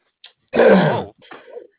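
A throat clearing cough: one rough, harsh burst followed by a softer, shorter rasp.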